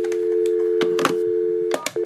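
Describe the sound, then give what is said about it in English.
A telephone line tone hums steadily while a call is placed to a health insurance company, cut by a few clicks and button presses, then breaking up near the end. “I am about to dial my health insurance company.”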